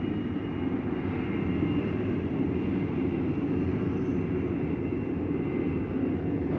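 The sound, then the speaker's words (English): Loud, steady jet engine roar from a U.S. Air Force jet taking off at an airport: a dense, continuous rumble that holds without breaks through the whole stretch. “A U.S. Air Force jet takes off.”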